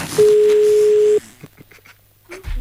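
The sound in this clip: A steady telephone line tone sounds while a call is being placed. It holds at one pitch for about a second, then cuts off, leaving only faint clicks and brief low blips.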